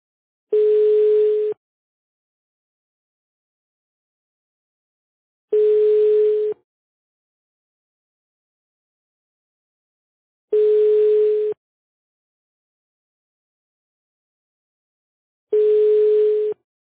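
Ringback tones while placing a telephone call: four evenly spaced, steady mid-pitched beeps of about one second each, separated by long silent gaps, with no voices.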